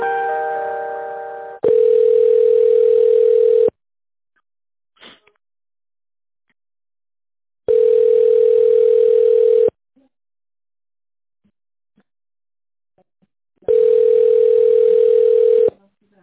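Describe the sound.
Telephone ringback tone while a call is transferred: a brief buzzier tone opens, then a steady mid-pitched tone sounds in three bursts of about two seconds each, separated by roughly four seconds of near silence.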